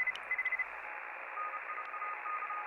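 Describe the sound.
Radio static: a steady, band-limited hiss with faint electronic tones and brief beeps over it, fairly quiet and unbroken, with no clear speech.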